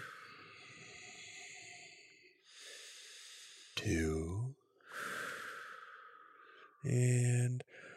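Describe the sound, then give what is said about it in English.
A group doing a calming breathing exercise: long, airy breaths drawn in and pushed out, separated by brief pauses, with a couple of short voiced bursts breaking in, all fairly soft. “a calming breathing exercise”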